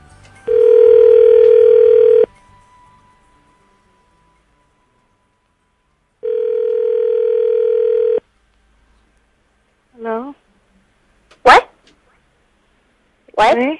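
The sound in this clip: A telephone line tone plays while a Christmas call is being placed: two long, steady buzzing tones separated by a pause of several seconds, followed by a few short, sharp chirping sounds.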